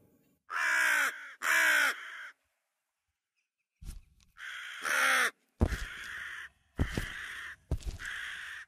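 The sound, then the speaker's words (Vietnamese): A crow perched on a wooden post at the mouth of a narrow alley gives loud, harsh caws, repeated several times in short bursts with brief pauses between them. “chợt một con quạ từ đâu bay liệng tới xà đậu xuống trước cái cột gỗ, rồi nó mở miệng kêu lớn lên những âm thanh đầy đáng sợ”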